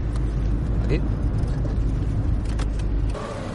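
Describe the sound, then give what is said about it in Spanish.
A car engine hums steadily as the vehicle slows and pulls over at the roadside, then drops away near the end, with a voice speaking over it. “El abogado frena el vehículo a un lado de la carretera.”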